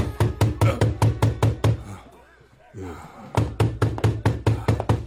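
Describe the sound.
Rapid, insistent knocking on a door: two long runs of loud, evenly spaced raps separated by a short pause in which a voice speaks.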